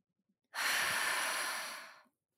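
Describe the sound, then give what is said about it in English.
A single long, airy breath taken during a yoga forward-fold stretch: one steady, soft hiss lasting about a second and a half that fades slightly at the end, heard alone with no talk. “Take a breath in, and let it out slowly.”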